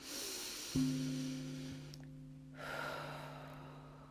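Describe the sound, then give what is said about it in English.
A deep breath drawn in and then slowly let out, soft airy rushes of breath set against steady, low, sustained musical drone tones. “Take a deep breath, let it out.”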